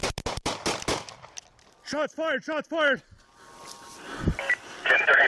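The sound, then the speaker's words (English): A rapid burst of several loud gunshots as police fire at a man raising a gun, sharp cracks packed tightly together, followed by a few short rising-and-falling tonal chirps and scattered noise. “Shots fired.”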